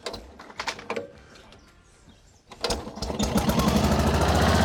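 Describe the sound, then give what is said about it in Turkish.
A rotovator's small petrol engine is coaxed into life: after quiet stretches with bird calls, it catches with sputtering bursts and then settles into a loud, steady buzzing drone that keeps building to the end. “Ben rotovatörle boğuşurken diğerleri işi hallediyor. Hadi bakalım çalışacak mı görelim.”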